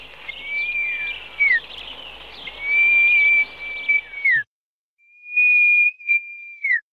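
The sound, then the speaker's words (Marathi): A person whistles to call birds such as crows and treepies: three long, steady, high whistles, each ending in a quick downward slide, with a short silent gap before the last one. “आताची शिट्टी कशी मारतो याचं एक वेगळं तुम्हाला demonstration दाखवतो.”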